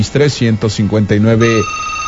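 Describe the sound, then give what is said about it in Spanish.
A telephone rings with an incoming call in a radio studio, a steady electronic tone that begins after someone finishes speaking and continues alone. “Tengo llamada rápidamente, vamos a saludar a quien se encuentra en esta llamada.”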